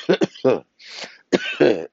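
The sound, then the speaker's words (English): A single short, breathy cough bursts out between stretches of a man's speech, then talk resumes right after. “I don't mean to cough in you guys' ears”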